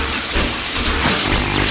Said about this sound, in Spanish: Cargamos el carbón. Motores a su máxima potencia. Y el tren comienza a avanzar.